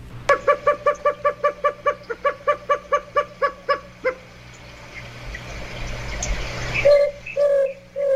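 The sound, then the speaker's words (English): A large ground-dwelling desert bird of the cuckoo family calls with a long, rapid, evenly spaced series of clucking, chicken-like notes. After a short lull, a few louder, lower drawn-out notes follow, with no voices. “It's actually a member of the cuckoo family. It's a large ground-dwelling, chicken-like bird of the desert southwest.”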